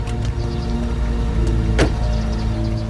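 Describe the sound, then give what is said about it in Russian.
A car engine running as the car pulls away, a steady low harmonic hum with a brief rushing sweep partway through, and no voices. “Машина уезжает.”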